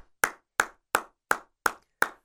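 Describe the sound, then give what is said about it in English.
Six sharp hand claps from one person, evenly spaced in a steady, deliberate rhythm, each crisp and loud and standing alone against silence. “I got to give a clap. Let me just stop right here.”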